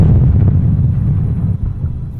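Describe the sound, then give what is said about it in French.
A volcanic eruption, Mount Vesuvius bursting into activity after 17 years of quiet, comes through as a deep, loud, continuous rumbling roar that stays heavy and low throughout, easing slightly toward the end. “le Vésuve, après 17 ans d'inactivité, entra en éruption.”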